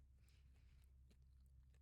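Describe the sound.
Crunchy, spicy, tuna-flavoured snack being chewed, with a few faint, brittle crunches spread through the bite over a low, steady background.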